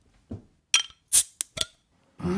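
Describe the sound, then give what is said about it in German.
A bottle of Wychwood King Goblin beer is opened, with a few short, sharp clinks and taps of glass and metal, including one bright, hissy burst, spaced irregularly and fairly quiet. “Gut, dann hast du jetzt Angst und wir machen dieses Bier auf. Hier kommt das Geröff vom Witchwood King Goblin.”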